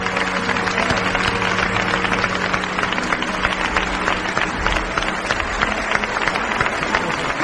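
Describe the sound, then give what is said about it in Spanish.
Steady audience applause at a live Spanish radio recording of horror and mystery stories: dense, even clapping that holds at a constant level for the whole stretch without pause. “También un gran aplauso para el equipo técnico de Radio Nacional de España”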